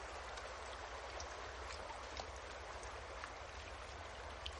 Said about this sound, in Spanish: Junto al río, John se sienta sobre un tronco mientras ella recoge agua en bolsas de tripa de bisonte.